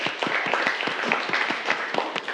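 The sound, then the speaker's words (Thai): Students clap for a classmate in a classroom, a dense, steady patter of many hands with sharper individual claps poking through, holding an even level for the whole stretch. “ปรบมือให้กับเพื่อนเลยนักเรียน”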